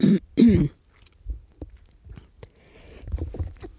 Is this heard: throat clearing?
yes